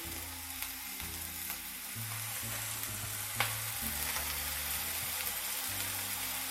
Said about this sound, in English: Just kind of let them sear for about a minute, maybe two.